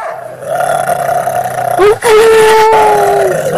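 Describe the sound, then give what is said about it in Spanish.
A dog howls in two long, loud, sustained wails separated by a brief break. The second wail is slightly lower and slowly sinks in pitch. “ahí les va un ladrido para los perros. Así que a ver qué tal el ladrido perruno.”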